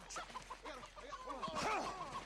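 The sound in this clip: A chicken clucks in a video game near a farm, giving many quick, fairly faint clucks in an uneven rhythm.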